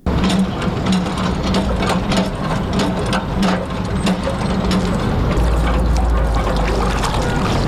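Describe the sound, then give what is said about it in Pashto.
Water running from a tap at a public water pump in the Khwaja Bughra area of Kabul, a steady loud rushing that continues for the whole clip with a low mechanical hum underneath. “خان محمد سیند راپور جوړ کړی دی او راپور د اوبو د نل په ژغ پیلېږي”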